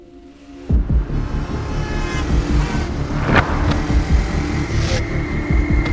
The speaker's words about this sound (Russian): Она снова едет по дороге.